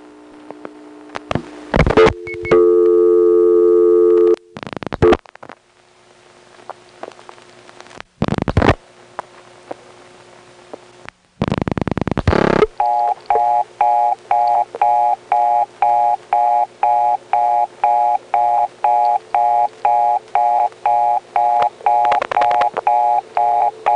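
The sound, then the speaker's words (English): Telephone exchange vacant-level tone on a number one step-by-step switch, reached on a 4-3 third selector while the vacant-level recording was busy. Switching clicks and short tone bursts come first, then a steady, evenly pulsed tone repeats many times. “Here's a vacant level on the 4-3 third selector at a time when the vacant level recording was busy.”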